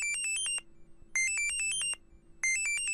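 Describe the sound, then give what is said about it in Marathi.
Phone ringtone: three bursts of quick, high electronic beeping notes in a repeating pattern, each burst separated by a short pause. “अरे थांब, सुखदाचा phone आहे.”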